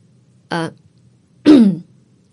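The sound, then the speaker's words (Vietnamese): A woman clears her throat twice, two short, harsh bursts with a pause between them, heard alone over a faint low hum. “Cẩm Thư cũng hoảng hồn và nhận ra bản thân vừa rồi đã lơ đánh thì liền hắng giọng một cái.”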